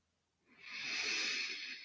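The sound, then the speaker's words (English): A single deep breath drawn in as a soft, airy hiss that starts abruptly and holds steady for over a second, faint and with no other sound. “Take a deep breath with me right now.”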